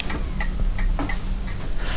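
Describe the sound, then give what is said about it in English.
Clock ticking in a small back room of a house: a steady series of sharp, dry ticks at a moderate level, heard alone without talk. “Start the clock up.”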